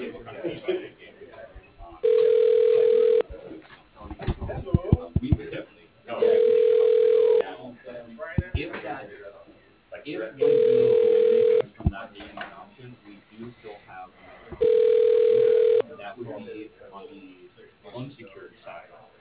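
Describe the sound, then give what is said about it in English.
A telephone ring tone sounds while a call is transferred to a business voicemail line. Four evenly spaced, steady tone bursts of about a second each alternate with talk between them. “Your call is being transferred.”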